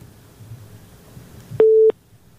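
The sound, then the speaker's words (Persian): Telephone busy signal as a call drops, one steady, mid-pitched beep of about a third of a second, loud after a stretch of faint low noise. “خب تماس ها تماس میگیرن اما بازم قطع میشه به هر حال.”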